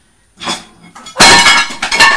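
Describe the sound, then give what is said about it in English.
A plate knocked onto the floor smashes: a first knock, then a loud crash with a ringing, clattering scatter of breaking pieces that carries on to the end. “When I was tidying up the plate, we've knocked it on the floor. Smashed. It's smashed. It's broken.”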